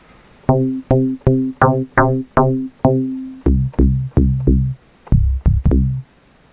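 Bass notes from an FM synthesizer play a sequence of many short, evenly paced tones, buzzy and metallic, with a held note in the middle before the line moves lower and ends with a few quick notes.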